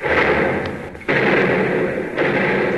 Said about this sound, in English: Commence firing! Aye, aye, sir. Number one and two turrets, commence firing.